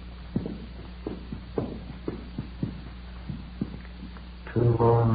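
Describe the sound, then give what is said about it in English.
Footsteps climb the stairs of a small hotel: a steady series of dull, moderately loud thuds at an even walking pace, with no talk over them. “We got a pass key from the room clerk on duty and started up the stairs.”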